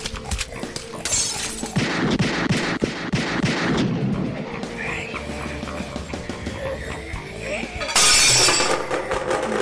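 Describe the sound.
Gunfire in a video game, a rapid burst of many loud shots with shattering, glass-like impacts, then scattered quieter noises and another loud burst near the end.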